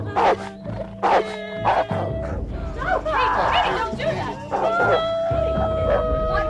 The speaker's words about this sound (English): Please call off your dog.